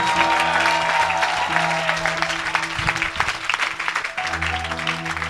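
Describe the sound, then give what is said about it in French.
Congregation applauding: steady, dense clapping runs throughout over sustained keyboard chords that hold underneath. “Est-ce que tu peux acclamer Dieu parce que tu es déjà béni?”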